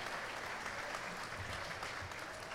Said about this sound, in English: Big round of applause, guys. Thanks for coming.